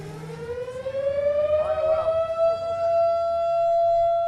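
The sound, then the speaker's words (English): A civil defense siren wails in Nome to mark sled dog mushers finishing a race. Its loud tone rises in pitch over the first seconds, then holds a steady, sustained note that gradually fades toward the end. “That's the siren that sounds in Nome when the mushers come in.”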